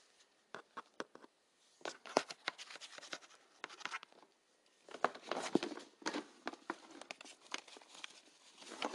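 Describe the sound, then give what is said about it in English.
A pen scratches across paper in short, irregular strokes, faint and dry, with brief pauses between bursts of writing. “Oh, you're gonna write something down?”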